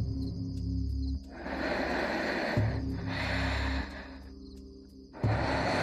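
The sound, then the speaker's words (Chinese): Uneven breathing heard through a telephone receiver: a few heavy, noisy breaths with irregular pauses between them, over a low, steady hum and no talk. “唐玉如听完了孟劲松的话一言不发，听筒里只剩下时急时缓的呼吸声。”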